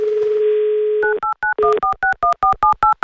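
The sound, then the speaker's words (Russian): A telephone dial tone holds steady for about a second. Then a rapid run of many short two-note keypad tones dials a number. The tones are loud and crisp, with no voices. “Давайте звонить Евгению.”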